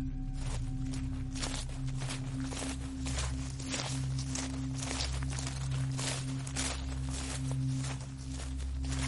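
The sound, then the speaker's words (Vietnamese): Footsteps walk around a village guardian-spirit temple, a long run of many soft, steady steps over a constant low hum, with no voices. “Có tiếng bước chân đi lại quanh miếu thành hoàng.”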